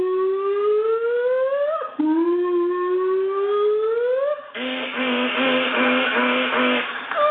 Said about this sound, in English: all of a sudden, outside, you hear a car alarm go off for like 46 minutes